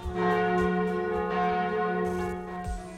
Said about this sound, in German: da läuten doch mal wieder die Glocken, die Hochzeitsglocken.